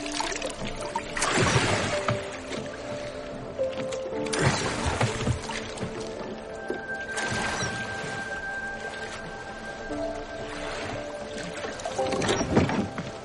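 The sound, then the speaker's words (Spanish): Oars rowing a boat on a lake, splashing strokes recurring every few seconds at a slow, steady pace, with quieter water lapping between them. “rema en el bote”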